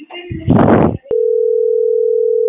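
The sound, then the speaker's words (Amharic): Telephone line tone heard while a call is placed: a short burst of sound, a click, then a steady, unbroken mid-pitched tone that holds to the end. “እስቲል ቆይ ደወልኩ ነው”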